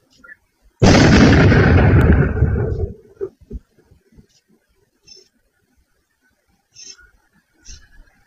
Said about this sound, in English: basically you could see the flash of light in the surveillance video followed shortly thereafter by the loud boom. Here it is.